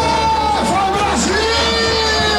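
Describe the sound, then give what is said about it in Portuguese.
Football fans in a bar cheering during a Brazil national team match, loud continuous crowd noise of yells and whoops, with individual voices sliding downward in pitch. “E a empolgação era tanta que o bar parecia arquibancada. A torcida ficou animada com o primeiro tempo da seleção. Mas a expectativa agora é pra Neymar. Sente só.”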